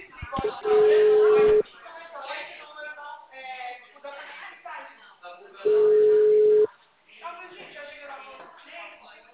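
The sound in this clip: A steady, mid-pitched telephone line tone sounds after a dropped call, heard as two long, even beeps of about a second each, separated by several seconds, while people keep talking underneath and between them.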